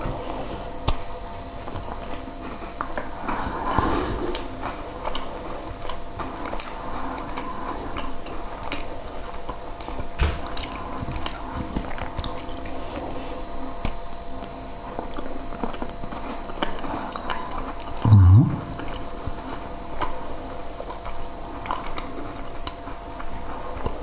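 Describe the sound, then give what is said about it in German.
Faint chewing of a Polish butter pastry: soft, irregular crunches and small clicks scattered over a quiet background throughout, with one slightly louder knock near the end. “Das ist so ein Buttergebäck aus Polen. Sehr lecker. Dazu der Kaffee.”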